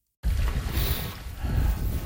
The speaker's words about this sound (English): Today is a recovery ride on the Kootenay River. We are riding in a canoe like the Lower Kootenay Band people used to do historically.